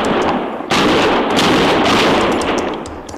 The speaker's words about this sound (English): Use your rifle, Chester. It's too far to hit them. It'll let them know they got a fight.